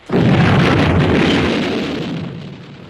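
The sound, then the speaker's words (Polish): A thrown hand grenade explodes as a sound effect: one loud, sharp blast that swells into a broad rumbling roar and slowly fades over about three seconds. “Co pan zrobił? Rzuciłem granat.”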